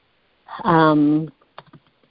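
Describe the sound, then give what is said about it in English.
A few soft keystrokes on a computer keyboard as meeting minutes are typed, coming right after a brief stretch of voice. “I'm writing this in caps in the minutes to check and see.”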